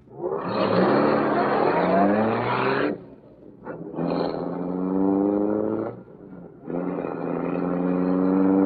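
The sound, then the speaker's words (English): A roadster pulls out into a street and accelerates, its engine roaring in three loud, sustained surges separated by short breaks. “Yes, roadster pulling out.”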